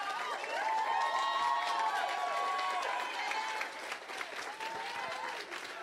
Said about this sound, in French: Donnez-leur une bonne main d'applaudissements parce qu'on a eu une seule pratique et ils ont réussi à faire tout ça.